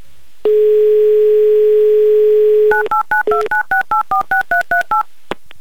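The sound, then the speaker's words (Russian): A telephone number is dialed: a loud steady dial tone holds for a couple of seconds, then a rapid, evenly spaced series of short keypad tones at shifting pitches follows. “Я уже, кстати, набираю ваш номер.”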